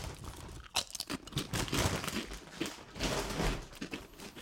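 Crunching a chili-and-banana flavored potato chip: many crisp, crackly bites and chews in an irregular run, fairly quiet, with no talking.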